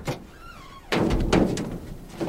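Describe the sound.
A box being kicked: a sudden heavy thud lands about a third of the way in and is followed by a rumbling, rattling scuffle that continues to the end.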